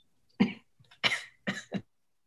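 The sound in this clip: Several short, harsh coughs from a person with a tickly throat during allergy season come in a quick, broken series of bursts, with no talking.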